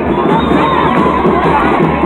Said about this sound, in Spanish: Vamos a despedir, señoras y señores, con un fuerte aplauso a la delegación de Pérez Primaria.